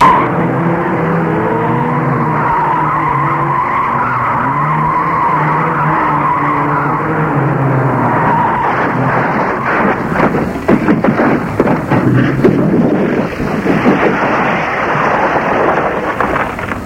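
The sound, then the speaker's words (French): A car fleeing a police chase skids off a bend, first with a long droning squeal of tires and engine, then a stretch of loud, irregular banging and crunching impacts as it crashes. “Et il a raté un virage. C'est l'accident.”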